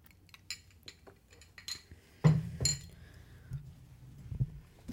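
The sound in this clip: Glasses clink in a celebratory toast. The sound is quiet and made of light clinks and small knocks, with two sharper chimes close together midway.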